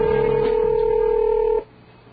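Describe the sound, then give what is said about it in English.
A telephone ringing with one loud, steady electronic ring tone that holds for about a second and a half, then cuts off, leaving only faint low background noise. “Is it my imagination or did that ring just get louder?”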